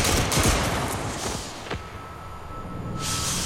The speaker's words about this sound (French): Et finalement, il est donc condamné à mort et fusillé. Formez le peloton. On joue. Feu.